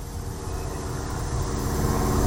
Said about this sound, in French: Oui, c'est un avion, ouais.